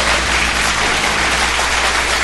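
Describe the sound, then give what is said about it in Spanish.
Applause on a late-night comedy show: a loud, dense, steady wash of clapping that runs without a break for the whole moment, with no voices standing out. “Tú mereces un aplauso.”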